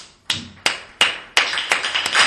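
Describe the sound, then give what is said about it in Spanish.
Sparse handclaps send off a guest on a comedy show: a few separate sharp claps at first, coming closer together and overlapping toward the end, with no voices. “Despedimos al complotado. Un aplauso para Javi.”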